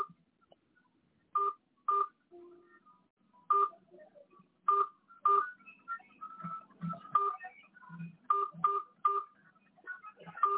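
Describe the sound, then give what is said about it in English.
Telephone keypad tones as a host PIN is entered on a phone line: a series of short, steady dual-tone beeps, some in quick pairs, with faint low murmurs between them. “Please enter your host PIN. When finished, press the pound key.”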